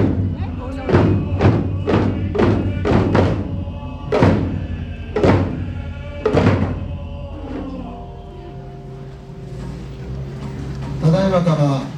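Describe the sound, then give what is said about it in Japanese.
Taiko drums beaten by about a hundred people inside a temple's main hall: heavy, booming strikes, first in a quick cluster and then more widely spaced, followed by softer sustained tones. “本堂の中でこういらっしゃる方も太鼓を叩いているので、多分100人ぐらい太鼓叩いてますね。バンバン響いてます。”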